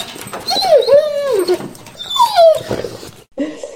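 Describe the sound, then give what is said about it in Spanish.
A poodle puppy lets out two drawn-out, high yelping whines that each slide downward in pitch, then a brief final yip, loud and clear with no voices over them. “Ese es el caniche, pero muerde, ¿eh? Si te portas mal en la hora, se te lanza.”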